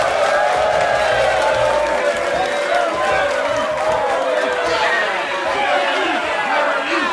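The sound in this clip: Cheers and applause from a live studio audience on the University of Florida campus, a continuous roar of clapping, chatter and whoops that stays loud and steady throughout.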